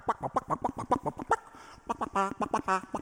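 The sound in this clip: Classical orchestral movement depicting chicks dancing in their eggshells, with many quick, bright staccato notes pecking out a fast, even rhythm, followed by a few sustained, trilling chirp-like tones.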